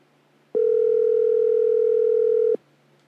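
A single steady ringback tone from an outgoing telephone call waiting to be answered: one even, mid-pitched hum holding for about two seconds, alone and followed by quiet.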